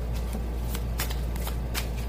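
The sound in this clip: Tarot cards being shuffled: continuous papery riffling and sliding with several sharper flicks and slaps, steady and fairly close, with no talking.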